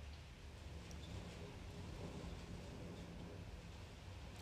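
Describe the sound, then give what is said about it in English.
Rain falls on a roof and windows while wind moves through trees, making a faint, continuous, even hiss with a low rumble underneath and no breaks. “You can hear the rain falling on the roof and the wind blowing into the trees and the rain pouting on the windows”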